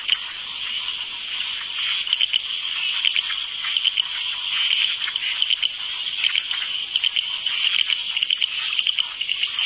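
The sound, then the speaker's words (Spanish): Frogs give mating calls as a downpour eases, forming a dense, steady chorus of high, buzzing trills with many rapid pulses repeating throughout. “Los cantos de apareamiento de las ranas les exponen al peligro.”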